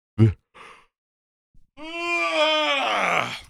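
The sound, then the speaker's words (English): A person yawns, a long, voiced, groaning exhalation with a strained, wavering pitch lasting nearly two seconds, preceded by a couple of short breathy sounds. “sorry. There's been a few complaints about my yawning. I apologize. I really do. I don't do it on purpose.”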